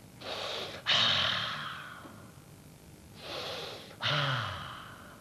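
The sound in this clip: Heavy snorting breaths in a stage play come in two cycles. Each is a hissing inhale followed by a louder, abrupt snorting exhale that trails away, with no talk over it.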